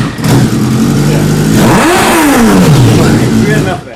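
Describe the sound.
A motorcycle engine revs at cold start while still running open loop, its pitch climbing sharply then sliding back down to a rough idle, with people talking over it.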